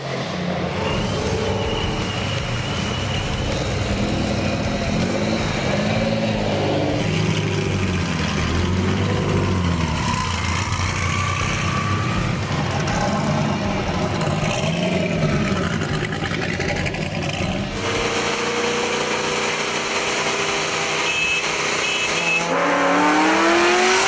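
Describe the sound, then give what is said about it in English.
Cars drag racing in an underground street race in St. Louis, engines roaring loudly and continuously, revving and rising in pitch as they accelerate, with overlapping passes and no voices. “We actually found a video online of a little underground drag racing going on around STL.”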